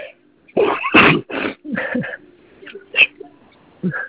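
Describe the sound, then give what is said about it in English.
A sneeze breaks into the dictation of a pediatric physical exam report. A sharp, loud burst near the start is followed by a few shorter, quieter catches of breath. “excuse me, sneezing here”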